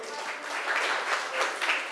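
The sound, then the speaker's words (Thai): Students clapping for themselves after earning points in a classroom quiz. The clapping is faint and steady, with speech partly over it. “ได้ไป10คะแนนค่ะปรบมือให้ตัวเองหน่อยค่ะ”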